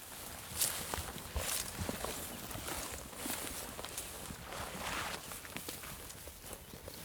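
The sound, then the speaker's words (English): Footsteps stride steadily through grass and shrub along the outer wall of Akraim on the steppe, with many soft crunching, rustling steps at an even pace and faint brushing of vegetation throughout. “What are we walking along now? We seem to be striding out through the grass and the shrub.”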